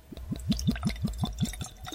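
Tequila glugs out of a corked bottle into a glass in quick, rhythmic gurgles, many soft pulses of liquid, fairly faint and steady throughout.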